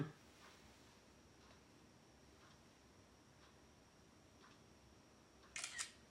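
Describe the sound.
A camera shutter takes a photo with one sharp, brief click near the end. Before the click there is only faint, steady background hiss.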